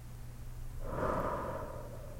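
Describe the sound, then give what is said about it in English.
A single slow, deep breath swells up and fades over about a second and a half, soft and airy over a faint low steady hum. “Deep breath in. Hold. And out.”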